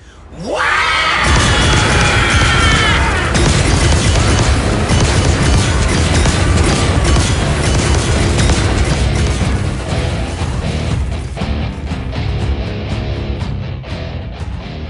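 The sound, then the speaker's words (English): Heavy gunfire from an ork's crude shooter: a loud, dense barrage of booming blasts and bursts that starts abruptly and rolls on without a break through the whole clip, easing only slightly toward the end. “That is Bosgat's shooter! I'd know that noise anywhere!”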